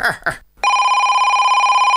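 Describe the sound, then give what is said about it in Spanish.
A telephone bell rings in a loud, continuous rapid trill, right after a brief burst of a raised voice. “¡Coge el teléfono!”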